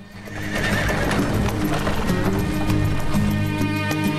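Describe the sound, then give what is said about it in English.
Hoofbeats and whinnies from six galloping horses pulling a stagecoach along a dusty track through a field: a loud, continuous stream of clip-clop with neighing over it, steady from start to finish. “On a dusty track which cuts through a field, a stagecoach is pulled along by six galloping horses.”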